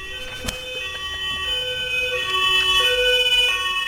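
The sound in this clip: An emergency vehicle siren passes by, its steady wailing tones shifting between pitches and growing slightly louder toward the end, alone over low road rumble.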